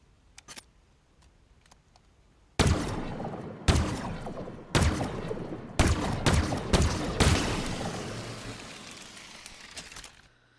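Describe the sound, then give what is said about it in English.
Covenant Stalker rifle, a Jackal-style sniper weapon in a video game, fires a slow series of loud sharp shots, each with a long decaying tail, after a few faint clicks at the start. “One of the most underrated weapons that um, I don't see a lot of people using, and when I get killed with it, I get pissed off, is the Stalker rifle.”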